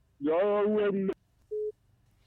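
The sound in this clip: After a brief burst of voice, a single short, steady telephone tone sounds once the caller's line has dropped, then the line goes quiet.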